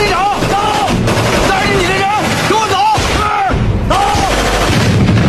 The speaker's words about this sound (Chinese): 机枪射过来一溜弹着脸，整个门窗在装甲炮火下破碎断裂。